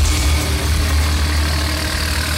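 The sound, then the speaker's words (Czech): A loader engine drones steadily as the machine carries heavy oak railway sleepers on its forks at the railway station in Kamenice nad Lipou. The low rumble is loud and unbroken throughout, and no voices are heard. “V prostoru nádraží u Skokolejky v Kamenici nad Lipou jede nakladač. Na vidlích má těžké dubové pražce.”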